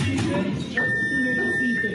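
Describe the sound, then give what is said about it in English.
A general alarm sounds aboard a cruise ship that has lost all engine power in a storm off Norway: a steady, high, continuous electronic tone begins partway through and holds unbroken to the end, with voices and noise beneath. “That's the sound of the general alarm sounding on the Viking Sky cruise vessel off Norway last weekend.”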